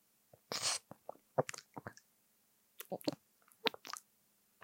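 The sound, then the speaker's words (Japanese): Wet kissing sounds from deep tongue kissing: many short, soft smacks and squelches with breathy bursts, in two clusters separated by a brief pause. “あ、エッチなキス、うまいじゃん。”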